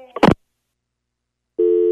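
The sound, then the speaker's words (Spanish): A telephone busy signal follows after the other party hangs up: a short sharp click, a moment of silence, then a steady low electronic tone begins. “Ya colgó. Creo que está enojado, ¿eh? Ya colgó, mija, otra vez.”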